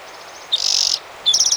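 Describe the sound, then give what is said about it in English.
Bird calls outside: two short, high, buzzy chirping trills, each a rapid run of pulses, separated by a brief gap over a quiet background with no voices. “Maybe two birds out there.”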